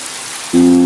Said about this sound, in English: the rain! The rain! That's right! Pocoyo can use the rain to clean Lula.